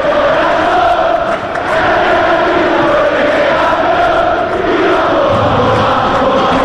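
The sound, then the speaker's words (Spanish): Football fans chanting in the stadium before a Rosario Central against Racing match, a massed crowd singing loudly and continuously, with sustained sung tones over a broad roar of voices. “Y así, así está el público. Escuchate, canalla.”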